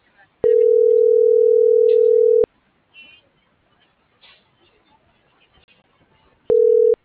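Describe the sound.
A telephone call tone: a steady mid-pitched beep lasting about two seconds, a long gap with only faint scattered noises, then the same tone begins again.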